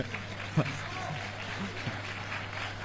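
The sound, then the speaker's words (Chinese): Warm audience applause at a Chinese folk performing-arts show: a steady hiss of clapping from the crowd, with a few brief voice sounds over it. “首先感谢大家热情的掌声”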